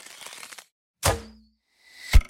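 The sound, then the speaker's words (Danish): An arrow: a soft rustling noise, then two sharp, hard cracks about a second apart, the second with a heavy low thump. “Det er lyden af en pil. En kærlighedspil.”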